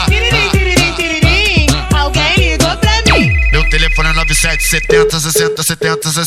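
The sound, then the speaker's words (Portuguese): A loud electronic telephone ringtone melody of rapid, repeating bright notes, followed by a deep downward bass swoop and a sustained tone over a continuing musical beat. “Tiririm, tiririm, tiririm, alguém ligou pra mim.”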